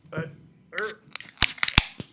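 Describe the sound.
Opening a drink: after a short stretch of voice sounds, a quick burst of sharp clicks and crackles follows in rapid succession.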